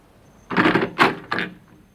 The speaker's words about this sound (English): Please open the door, please.